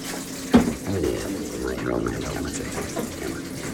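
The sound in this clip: Water running at a sink as hands are washed with bleach, a soft, steady splashing flow following a brief clunk near the start.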